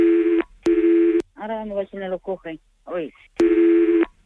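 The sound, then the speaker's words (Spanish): Telephone tones while a call is transferred to a shop's ordering line: two long steady beeps at the start and one more at the end, with talk in between. “Mira, le voy a transferir con la página.”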